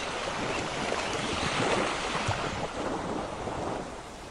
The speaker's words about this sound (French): Alors qu'un magnifique bord de mer se dessine, d'un souvenir ou un bord de mer imaginaire, là où la douce brise marine caresse ton visage.